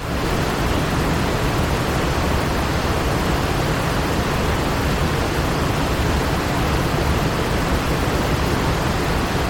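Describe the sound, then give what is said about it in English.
A waterfall's loud, constant roar of many waters, a full, steady rush of noise that never changes in level or character over its length. “if you've ever been near a waterfall, then you know what the voice of many waters sounds like. It is pure noise. It's like white noise,”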